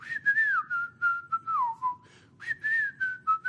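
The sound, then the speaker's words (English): A lone whistler carries the melody of a film ballad in several short phrases. The notes are clear and bright, gliding smoothly between pitches, with brief pauses between phrases. “they also have that the ballad that they do with the whistling,”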